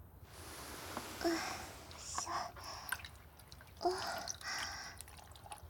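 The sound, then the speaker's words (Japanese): A warm, wet hand towel wipes an ear during ear cleaning, making faint, soft damp rubbing and swishing strokes with small wet clicks, in a few quiet bursts. “こっちのお耳も、おしぼりから始めていきますね。”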